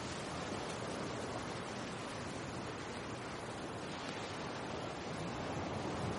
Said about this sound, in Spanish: en el mar hay un gran oleaje